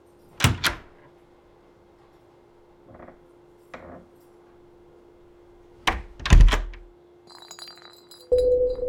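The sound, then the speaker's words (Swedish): Knocking by a cleaner on a hotel room door: two sharp raps, then a pause with a couple of faint taps, then another cluster of loud knocks, followed by light clinking over a steady low hum. “en av hotellets städare knackar på dörren till rum nummer 2005.”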